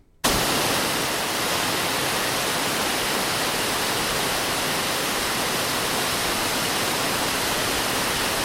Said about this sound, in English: Ooh, it's a constant sound. What is that? Play it for you again. Oh, it's my favourite of waters. Waterfall. Waterfall.